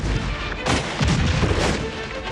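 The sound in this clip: Gunfire in a battle, a dense, noisy barrage with a few louder bursts standing out against continuous rumbling.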